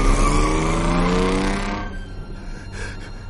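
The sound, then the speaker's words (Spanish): A car engine roaring loudly as the vehicle drives away, its strong tone holding steady at first and then fading sharply to a faint rumble in the second half. “Observa cómo el coche se va.”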